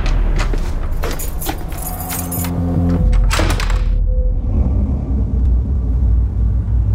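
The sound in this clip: Car keys jangle in a few quick metallic bursts as they are handed over, loud over a steady low rumble that continues after the jingling stops.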